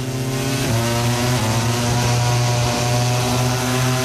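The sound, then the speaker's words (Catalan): A MotoGP racing motorcycle engine at the Indonesian Grand Prix, running close behind another bike's exhaust, gives a loud, continuous, harmonic-rich drone that holds a fairly steady pitch with small shifts throughout. “Aquesta és la moto de Bastianini. I està enganxat al tub d'escapament de la moto de Márquez.”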